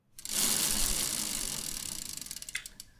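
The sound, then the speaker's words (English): A spun wheel gives a broad, steady whirring rush, and a quick train of many small ticks emerges toward the end as it keeps turning. “So let's spin that wheel.”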